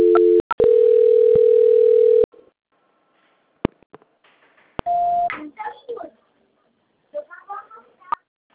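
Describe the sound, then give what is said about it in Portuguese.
Telephone tones while a call is transferred: a steady dial tone runs about two seconds, broken by short beeps, then sparse clicks and a brief single tone. People talk afterward. “desculpa, caiu a ligação. Eu estou transferindo, tá? Só um instante. Tá. Transferência.”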